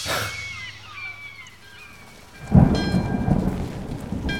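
A thunderstorm with steady rain patters on continuously while a loud, rolling rumble of thunder swells in midway and keeps rumbling under the downpour.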